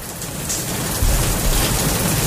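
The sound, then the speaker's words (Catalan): Rain falling on a hot day, a dense continuous hiss that swells slightly partway through as a deeper low rumble joins it, with no voices. “Podem fer que plogui una mica, sisplau?”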